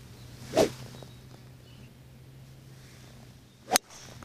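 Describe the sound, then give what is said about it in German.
A golf swing hits the ball with a 7-wood club: two brief, sharp swishing sounds about three seconds apart against a quiet outdoor hum, the second crisper and more cracking. “Das war jetzt nur ein 7er Holz, mit dem bin ich gar nicht so lang”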